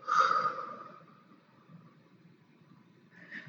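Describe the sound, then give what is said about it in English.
A deep breath is drawn in through the nose and let out through the mouth. It opens with a loud, airy breath, fades to a quiet stretch, then another breath swells near the end. “take in a deep breath, friend, through your nose, out through your mouth.”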